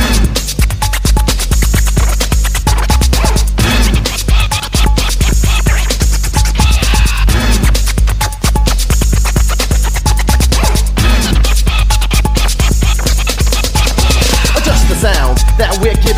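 Loud, rapid turntable scratching by a disc jockey, with quick rhythmic record scratches over a pounding, bass-heavy beat. It runs continuously with no talk.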